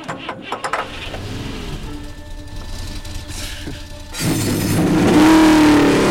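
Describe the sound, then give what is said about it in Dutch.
Several race car engines start and rev at the start of a race. A loud, broad roar swells up sharply after a quieter stretch of low rumble and holds strong to the end. “Heren, start uw motor.”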